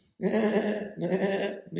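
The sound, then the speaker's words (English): Sheep bleating: two drawn-out, wavering, nasal bleats follow back to back, and a third begins as the sound ends. “You got sheep around here.”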